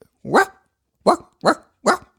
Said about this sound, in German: Also, der Hund bellt.